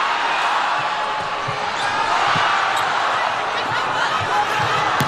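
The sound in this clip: A volleyball is bounced several times before a serve in a match involving Thailand's team, soft dull thuds under a loud, steady crowd roar.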